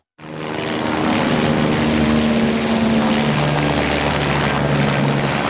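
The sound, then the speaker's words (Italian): Firefighting helicopters and Canadair water-bomber engines working over Lago Maggiore during wildfires in Piedmont: a loud, continuous droning roar that starts abruptly and holds steady throughout, with a low humming tone running beneath it. “Da una settimana ormai gli abitanti dei paesi piemontesi tra Lago Maggiore e Bassa Valle Ossola hanno fatto l'abitudine a questo rumore. Sono i motori degli elicotteri e dei Canadair che prelevano acqua dal lago e la scaricano sui fronti di due”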